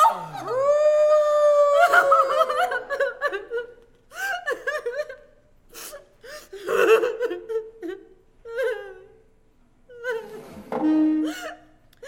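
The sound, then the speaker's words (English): A wolf howls in long, wavering, tonal cries, followed by shorter yelps and whining calls that break off and resume in several bursts, loud and alone. “I heard a wolf outside, and it tried to get through the window.”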